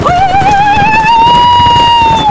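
A horse spurred hard into a charge lets out a long, loud, ringing whinny over a dense rumble of hoofbeats, with no talking.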